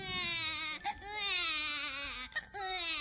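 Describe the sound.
A colicky four-month-old baby crying in long, high wails, broken by two brief gasping pauses, fairly faint and with no other voices.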